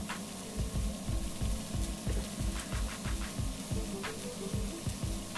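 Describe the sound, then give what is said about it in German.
Chopped onion pieces fry in a pan as they start to brown, giving a faint, steady sizzling hiss with many low, regular scraping knocks running through it. “Die Zwiebeln, die in kleine Stücke sind, die kommen da jetzt schon mal mit rein. Dass die Zwiebeln auch ein bisschen Farbe annehmen,”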